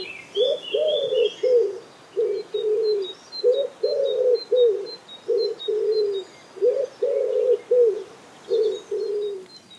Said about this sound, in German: Ebenfalls in der Stadt lebt die Ringeltaube und die klingt so.